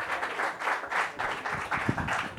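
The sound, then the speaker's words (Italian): An audience applauds at a comedy night. The clapping is dense and continuous, holding at a fairly even loudness with slight surges throughout, and no voices rise above it. “fate un applauso a quel figlio di puttana di Francesco Maggioni.”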